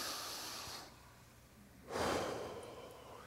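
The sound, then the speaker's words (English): A deep breath is drawn in as a soft, airy rush heard twice, the second fuller and louder than the first. The sound is quiet overall. “Everyone take a big deep breath and inhale.”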